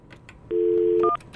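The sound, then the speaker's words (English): Telephone keypad dialing tones: a steady dual tone held for about half a second, then short, higher key beeps. “Dial like the wind. Dial carefully.”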